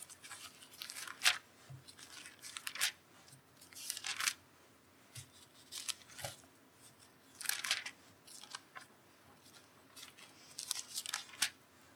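Thin paper pages of a Bible rustle as they are turned over to 1 Peter, giving many soft, crisp swishes and crinkles in scattered bursts. Faint, with no voices.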